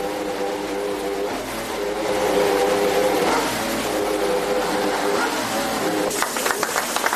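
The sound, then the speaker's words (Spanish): A McLaren Formula 1 engine runs at its first fire-up at the team's Woking headquarters, giving a steady, layered mechanical roar that grows slightly louder midway and ends in a few sharp crackling pulses. “Ya queda menos para el arranque de la temporada en Fórmula 1 y así ruge, así suena el motor de Fernando Alonso.”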